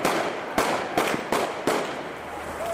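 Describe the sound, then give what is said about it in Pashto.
Gunshots ring out during a street protest by traders, carpenters and craftsmen at a city intersection in Kunar. Several sharp, loud cracks land less than a second apart over steady background noise. “د ډزو سړې نه معلومې د خو لاریون کوونکې وایي دا هر څه پولیسو کول.”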